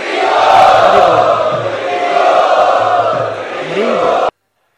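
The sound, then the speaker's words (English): An audience chants loudly together to welcome a speaker at a devotional evening gathering: sustained, droning massed voices hold steady for about four seconds before stopping abruptly. “So let us welcome His Grace Chaitanya Charan Prabhu for this evening's presentation by loudly chanting.”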